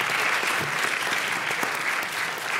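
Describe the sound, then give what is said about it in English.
An audience applauds after a panel discussion, a steady, dense wash of clapping that holds at an even level throughout. “Please join me in thanking our moderator and our panelists for a great conversation.”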